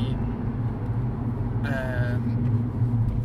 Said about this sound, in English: this is fun driving. I did this last time. Yeah, I know. Talking and driving at the same time. We have literally just left the Literally, event. I'm going round the roundabout.